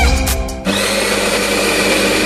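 Coffee grinder working through freshly roasted coffee beans: a loud, steady motorized whir with a high whine kicks in abruptly just over half a second in and holds constant to the end.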